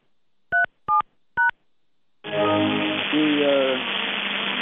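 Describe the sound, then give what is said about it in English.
Three short, clean telephone keypad beeps entering a conference code on a conference call line, evenly spaced, followed by a long steady rush of noise. “Please enter your conference code followed by the pound sign”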